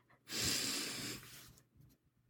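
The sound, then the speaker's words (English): A single deep breath is drawn in, a long airy rush about a second long that swells quickly and then fades, loud and alone with no talk. “Let's just take a deep breath in really quick.”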